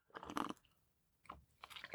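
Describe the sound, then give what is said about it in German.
Close mouth sounds of someone drinking coffee: soft sips and swallows come in a few quiet, separate bursts with near silence between them. “ich trinke gerade einen Kaffee. Achtung, Achtung, Achtung, großer Punkt. Achtung, Trinkgeräusche.”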